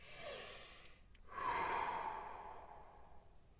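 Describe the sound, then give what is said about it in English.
One slow breath, drawn in through the nose with a soft airy hiss, then let out through the mouth in a longer, louder breathy exhale that gradually fades, with no talk. “You can just breathe in through your nose and out through your mouth. Breathe in through your nose and out through your mouth.”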